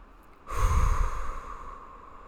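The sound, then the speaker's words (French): A single deep, airy breath, taken as part of a calming breathing exercise, starts abruptly after a short quiet and then fades slowly into soft background hiss, with no talking. “Tu prends des respirations trois fois.”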